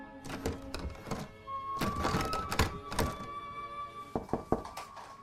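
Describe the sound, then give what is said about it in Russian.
A mother yanks at a bathroom door handle, making bursts of rattling thunks and knocks in uneven clusters while steady music tones play underneath. “Мать дергает ручку.”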